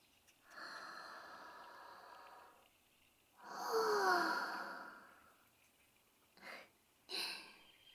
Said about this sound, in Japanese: お外でこうして深呼吸すると、私たち女神ですらとても心地いいんです。